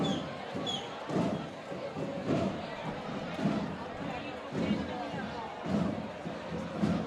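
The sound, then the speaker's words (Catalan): Drummers of la Jove entering the town square: heavy beats recur about once a second, carried over a steady wash of crowd noise and voices. “Els timbalers de la Jove ara entren al cap de la vila.”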